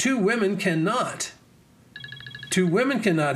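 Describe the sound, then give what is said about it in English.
Mobile phone ringtone going off during a talk: a brief, faint burst of rapid, high beeping in a pause between stretches of speech. “I don't know why my phone is ringing like that. It should be completely off.”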